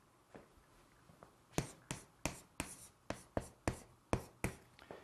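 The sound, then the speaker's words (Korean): Someone writes the Korean character 정, meaning chastity or steadfastness, by hand: a quick series of many crisp scratching strokes, faint at first, then sharper and evenly paced, with no talking. “정하다는 정, 제가 한번 써볼게요.”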